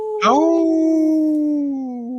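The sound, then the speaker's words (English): A Minnesota wolf gives one long howl that swells in at the start, then holds a clear, sustained tone that sinks slowly lower toward the end, heard alone. “In this portion of the show, we like to bring awareness to our Minnesota wolf population.”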